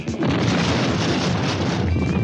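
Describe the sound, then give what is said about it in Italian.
A bomb goes off, a loud blast that hits suddenly and spreads into a broad, sustained roaring rumble filling the remaining two seconds with no voices. “C'è stata la bomba!”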